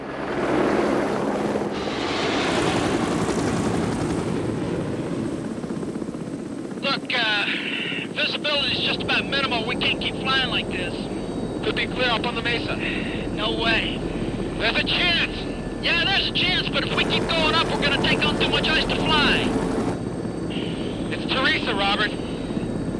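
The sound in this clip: A propeller plane's engine drones steadily as it flies at night over vast, dark, snow-capped mountains. The hum stays loud and even throughout, with a voice talking over it.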